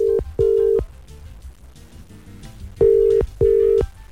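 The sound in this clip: Ringback tone of an outgoing phone call waiting to be answered: loud, steady, mid-pitched beeps in a double-pulse pattern, with a long quiet pause between the pairs.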